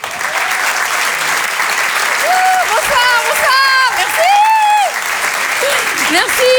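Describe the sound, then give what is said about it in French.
A comedy club audience applauds and cheers as a comedian comes on stage: loud, continuous clapping with whooping voices rising and falling over it throughout. “Faites du bruit, s'il vous plaît, pour Vanessa Caillot.”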